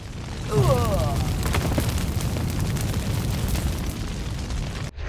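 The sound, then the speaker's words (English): Video game death sound as a character burns in fire: a dense, roaring, crackling noise throughout, with a brief descending chirp near the start and an abrupt cut just before the end. “And we burned in the fire. By the way, you can hit enter just to skip those death sounds if you don't want to draw them out.”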